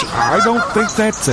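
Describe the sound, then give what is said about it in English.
Geese honk during their migration in a series of nasal, reedy calls that repeat at an uneven rhythm, while a man talks over them. “Pretty sure it's geese, bud. Look, you can see them.”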